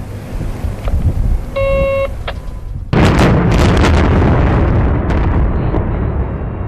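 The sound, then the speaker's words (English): A copper mine's daily rock blast, the 8 a.m. and 8 p.m. firing shot: a short tonal beep, then a sudden loud boom that turns into a sustained, heavy rumble lasting several seconds. “the unofficial alarm clock at 8 a.m. and 8 p.m. every day rang out for the final time. Firing shot.”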